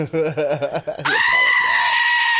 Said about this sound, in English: Yes, that goat is a lyrical genius.